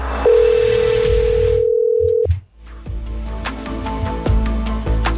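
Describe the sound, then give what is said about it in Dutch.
A steady telephone tone sounds as a call is being placed, holding one even pitch for about two seconds before cutting off, followed by music playing underneath. “Ja, en daarvoor hebben wij een tegenspeler nodig. En het is tijd om die te gaan bellen.”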